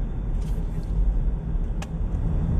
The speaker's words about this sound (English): sorry, I'm having to let a vehicle over.